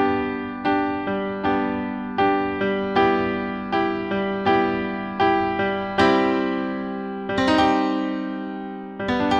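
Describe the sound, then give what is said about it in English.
A chord progression moving from a four minor chord to a one chord: a run of struck chords, each ringing and decaying before the next, ending on a fuller, longer-held chord. “it's whenever a songwriter goes from a four minor chord to a one chord. So that chord progression sounds like this.”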